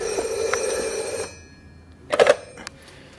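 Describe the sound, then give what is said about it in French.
A telephone rings with a bright, sustained bell tone lasting just over a second before cutting off, followed by quieter background sounds. “C'est Gorbatchev qui téléphone.”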